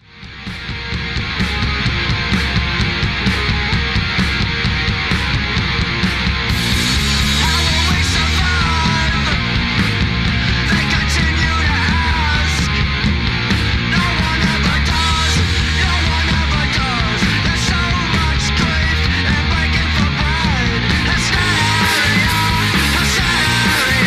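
Music track from the video game GTA V, loud and continuous; it rises quickly at the start and grows fuller and brighter after about seven seconds, continuing steadily to the end with no talk.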